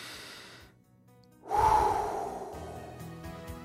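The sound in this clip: A deep breath drawn in before a prayer: after a hushed pause, one breathy intake starts abruptly, then fades gradually into a soft, airy exhale.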